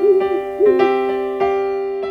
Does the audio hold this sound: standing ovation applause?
no

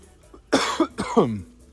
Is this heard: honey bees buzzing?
no

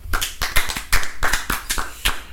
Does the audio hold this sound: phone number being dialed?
no

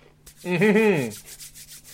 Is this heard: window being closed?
no

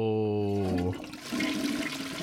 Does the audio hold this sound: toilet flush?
yes

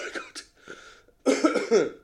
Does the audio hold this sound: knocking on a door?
no

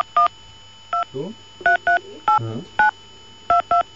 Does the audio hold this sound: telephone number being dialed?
yes

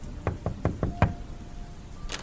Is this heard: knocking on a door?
yes

